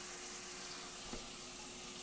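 Water runs from a tap into a sink while air fryer baskets are washed, a soft, steady rushing stream that continues evenly with no talking.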